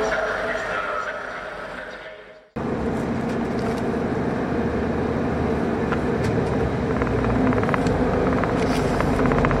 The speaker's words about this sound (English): that's my train